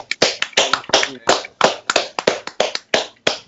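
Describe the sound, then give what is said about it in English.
A few people clap for a guest at the close of a conversation, sharp separate hand claps in an uneven, quick rhythm that keep going for a few seconds with no talk over them. “Let's clap it up for Terrence real quick.”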